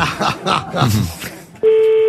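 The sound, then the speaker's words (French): A telephone rings on the line as a call goes through: after a stretch of talk, a single steady mid-pitched ringing tone starts abruptly and holds loud to the end. “Ça sonne chez Julie.”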